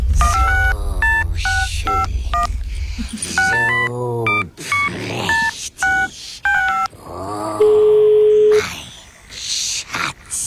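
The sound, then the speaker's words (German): Touch-tone telephone dialing beeps as a call is placed to a tattoo artist, many short keypad tones in quick runs, with a longer steady tone near the end. “Für mein neues Der Herr der Ringe Tattoo habe ich meinen Gollum-Phone genommen und ganz schnell bei meinem Tätowierer angerufen.”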